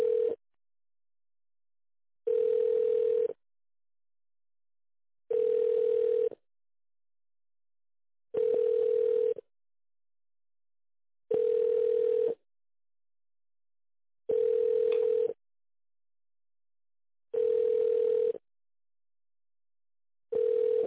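Telephone ringback tone while a call is being connected: a steady single-pitched tone sounds in eight bursts, each about a second long. The bursts repeat roughly every three seconds with silence between them.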